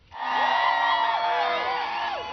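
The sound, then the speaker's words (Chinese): Football fans cheering outdoors in Mexico City while watching a live World Cup broadcast of Mexico beating South Korea 1-0: a dense, sustained roar of many voices, with shouts rising and falling over a steady crowd bed. “首都墨西哥城4万多民众在户外观看实况转播，欢呼声和庆祝声不绝于耳，球迷激动的心情溢于言表。”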